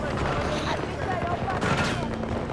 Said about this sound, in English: Let me shoot something.